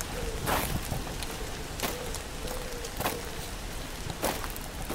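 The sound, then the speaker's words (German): Heavy rain on a hike in the Black Forest, a steady, dense hiss with a few brief, louder bursts scattered through it. “Leider regnet es momentan noch ziemlich heftig, aber laut Vorhersage soll das später besser werden.”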